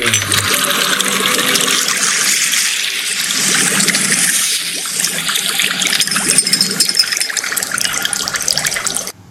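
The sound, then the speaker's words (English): Bubbling cauldron sound effect: continuous, fairly loud churning and gurgling water with dense bubbling throughout, easing briefly in the middle before building again. “All right, so what I'm going to play now is a little bit of cauldron sound.”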